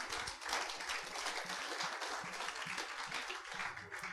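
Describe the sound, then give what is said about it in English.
A church audience gives a dense, continuous round of hand clapping to celebrate a newly released song. The claps blur into an even, fairly soft wash of applause with no pauses. “Let's give Jesus a hand clap.”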